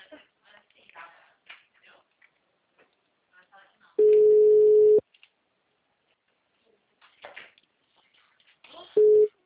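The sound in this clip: A telephone busy tone after a dropped call: a steady, low-pitched beep lasting about a second, then a second short beep near the end, with faint talk and rustling in between.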